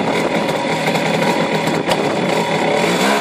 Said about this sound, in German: Ist aber genauso kernig. Ich fahre hier im zweiten Gang.